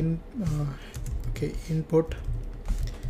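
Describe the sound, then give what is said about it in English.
Typing on a computer keyboard while entering code, with scattered clicks of keys in short irregular runs under a person talking. “inside this one let's type something like username. You won't get a username from somebody who visit your website, so you type username.”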